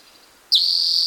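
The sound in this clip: Bird song: after a near-silent opening, a high, piercing note bursts in halfway, slurring sharply downward and then holding as a steady, buzzy trill until the end.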